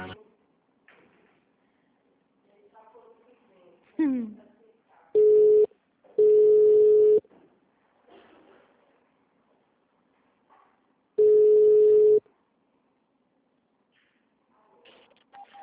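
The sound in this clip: Telephone call transfer tone: three steady, mid-pitched beeps, the first short and the next two about a second long, with a long gap before the last, separated by faint, quiet background noise.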